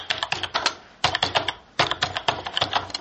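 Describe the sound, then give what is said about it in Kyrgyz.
Fingers type on a computer keyboard, producing quick runs of light plastic key clicks in a few bursts separated by brief pauses. “Телефонун чукулап, клавиатурадан тамга терип жаткан жаштарды кайдан гана жолуктурбайсың.”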